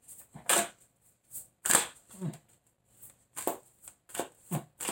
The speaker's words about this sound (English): Let me go ahead and get an oracle card and see what goes on.